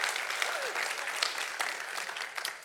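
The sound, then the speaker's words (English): A church audience applauds as a pastor is welcomed to the pulpit at a Wednesday night service. It is a dense, steady patter of many clapping hands, holding fairly loud before easing slightly at the end, with no talk. “would you put your hands together and welcome Pastor Ryan Joyner”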